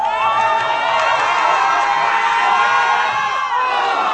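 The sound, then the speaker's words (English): German football fans at a viewing party cheer and shout together, a dense, loud, unbroken roar of voices that holds steady for the whole stretch, with whoops rising above the crowd noise. “And while the crowd is into the game just as much as the Brazilians,”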